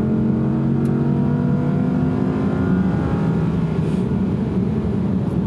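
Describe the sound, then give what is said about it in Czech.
Car engine droning as the driver steps on the gas in top seventh gear at about 3300 rpm, a loud, steady hum with no talking. “Točím nějakých 3300 otáček. Zpočátku se mi to zdálo mnoho. Ale pak mě to osvítilo. Šlápnu na plyn.”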